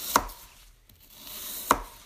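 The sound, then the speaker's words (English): Two sharp knife chops on a cutting board as food is sliced, the strikes spaced well apart with quiet in between and no talking. “I just love when you're cutting something and your knife fucks up and doesn't fucking go all the way through.”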